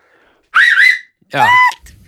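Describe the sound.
Loud whistling made with fingers in the mouth: two shrill, piercing blasts separated by a short gap, the second one gliding lower at its end.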